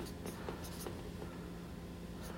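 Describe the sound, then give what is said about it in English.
Handwriting on paper gives a few faint, scratchy pen strokes in short bursts over quiet background hiss, with no talk. “So, I'm just going to write this down because I need to write it down.”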